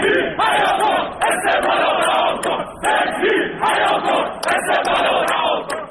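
Esteghlal Tehran football fans protest at the team's training ground, demanding the head coach's dismissal. A loud crowd chants and shouts in rhythmic surges, pausing briefly between bursts of collective yelling.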